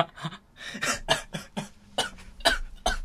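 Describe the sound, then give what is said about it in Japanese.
A person coughing and choking, many harsh, rapid bursts in an uneven series, loud and without speech. “ちょっと、むせてますけど大丈夫ですか”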